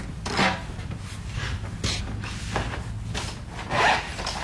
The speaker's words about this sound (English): The sounds of a local artist drawing a charcoal portrait from life at Saw Studios in Carbondale.